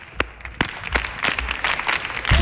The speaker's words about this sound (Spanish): Venga, ¿cómo puede ser este público que me haga ahí unas palmas? A compás.